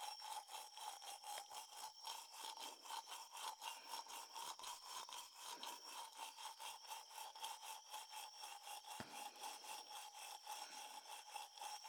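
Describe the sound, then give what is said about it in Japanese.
Faint polishing, a rubbing sound of many quick, even back-and-forth strokes in a steady rhythm, with a light rasping texture throughout. “慣れておりませんので、もしも変なところを磨いてましたら、教えてくださいね。”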